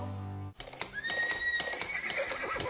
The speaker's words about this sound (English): Let the power of the horse go to work for you.